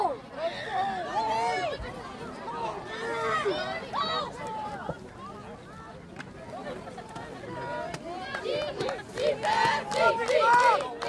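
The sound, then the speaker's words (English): Crowd noise at a high school football game, a steady, fairly loud hubbub of many overlapping voices that swells and dips throughout. “Crowd's trying to spark a little something.”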